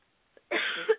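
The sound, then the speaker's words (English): A single short, sharp cough stands alone in quiet, with a brief throaty catch at its end. “Sorry, starting to cough here.”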